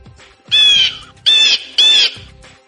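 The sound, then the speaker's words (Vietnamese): Three loud, harsh squawks from an angry little bird as it flies up, each high and rasping, separated by brief pauses. “Con chim nhỏ phẫn nộ vì bị người nào đó lôi ra khỏi ngực Nghiêm Mặt ném xuống, tức giận bay lên đuổi theo.”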